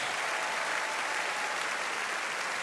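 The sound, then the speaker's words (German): Audience applause greeting a rider and his Westphalian stallion at a show-jumping event, a steady, even wash of clapping at fairly low volume from start to finish. “Sie hören die großen Sympathien, die ihm jetzt hier in Form des Applauses schon entgegengebracht werden”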